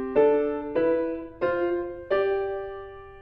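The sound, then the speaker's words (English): Struck musical notes played in parallel fifths, each a two-note fifth, with the notes said to move upward step by step. Four chords sound one after another at a steady pace, each with a sharp attack and a ringing decay. “So this is what parallel fifths sound like.”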